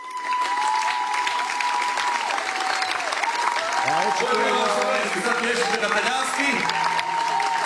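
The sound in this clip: An audience applauds steadily at a live music show, a dense, even patter of clapping from start to finish, with a voice heard over it midway.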